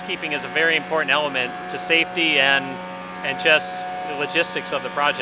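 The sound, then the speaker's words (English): A steady buzzing drone from a big truck vacuuming up dust and water on a construction project, a continuous tonal hum running beneath a person talking. “Like that buzzing noise you can hear right now, it's coming from a big truck that's vacuuming up dust and water.”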